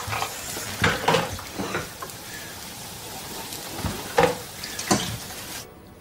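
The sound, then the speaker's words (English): Onions frying in a pan give off a steady sizzle and crackle, with a few louder bursts as they are stirred. “Fry the onions, yep.”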